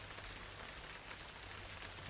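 Rain falls in a soft, steady hiss, an even wash of drops that stays faint and unchanging throughout.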